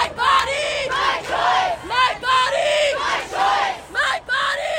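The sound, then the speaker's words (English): Abortion rights protesters at a demonstration in Los Angeles chant a short two-part slogan in unison. The loud crowd voices rise and fall in a steady, repeating rhythm throughout. “That's the sound of abortion rights protesters in Los Angeles over the weekend expressing their rage at the Supreme Court's decision overturning Roe v. Wade and vowing to fight it.”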